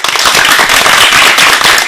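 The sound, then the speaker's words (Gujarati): Dense, rapid applause from many hands clapping at once, loud and steady for about two seconds with no voices. “આ તાળીઓના ગડગડાટને વધાવવા માટે તૈયાર છો ને?”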